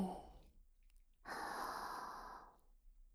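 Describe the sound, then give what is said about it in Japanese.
Slow, quiet breathing: a short airy breath, a brief pause, then a long, soft, hissing exhale that gradually fades. “吸って吐いて、また吸って”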